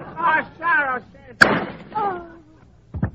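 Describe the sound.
A single gunshot from a gun in a radio drama, a sharp, loud crack that cuts in between tense, agitated voices, with talk continuing after the shot.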